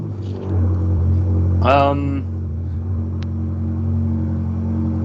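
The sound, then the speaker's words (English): A passing road vehicle's engine rumbles low and steady, with a brief revving surge near the middle before settling back to a constant drone. “Wait till that noise dissipates. I mean, I think that vehicle is definitely either really upset with my response”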